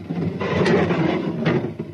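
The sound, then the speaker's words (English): A door with a sonic lock opens with two short mechanical clunks, set apart, over a steady low background. “The door has a sonic lock. I know the combination. Watch. 2023. Open sesame.”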